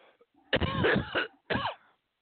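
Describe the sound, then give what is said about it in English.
A person gives two harsh coughs, the first longer and rougher and the second short, with a faint throat sound just before. “you're going to have to deal with coughing a little bit.”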